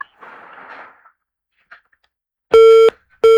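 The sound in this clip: A phone call cuts off into a disconnect tone: faint line noise gives way to two loud, steady electronic beeps in an on-off pattern, the second cut short.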